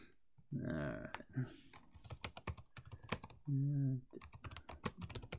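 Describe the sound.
Rapid clacking of computer keyboard keys, many uneven keystrokes in quick bursts, with a couple of short held vocal sounds from a person between them.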